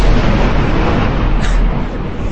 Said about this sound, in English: Well, that was a rather large explosion.